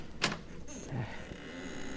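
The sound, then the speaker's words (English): A door in the basement of a former cafe is opened after crates are shifted: a brief scrape, then faint squeaks and a low creak, all quiet. “Gotta move these crates first. And then this door.”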